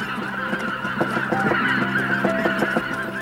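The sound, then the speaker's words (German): Wild geese honking in flight, with many loud, nasal calls overlapping in an irregular, continuous chorus. “Schauen wir, die Wildgänse kommen schon zurück.”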